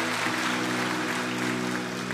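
An audience claps steadily during a Sunday church service, praising God. The dense, even clapping runs the whole time, with sustained low tones held beneath it.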